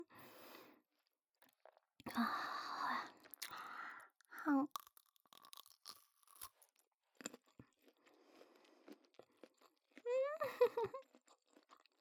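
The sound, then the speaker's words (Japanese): Crunchy skin being chewed gives quiet, crisp crunches in a few separate bursts of biting and chewing, with silence between them and a brief soft voice near the end. “おいしい。やっぱりこの皮のね、音が最高ですよね。”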